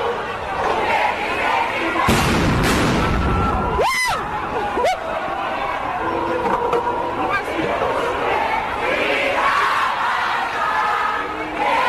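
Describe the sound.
Stun grenades and tear gas fired by public order police at protesting university students near a parliamentary precinct: a few sharp, loud bangs break through constant crowd noise, chatter and shouting.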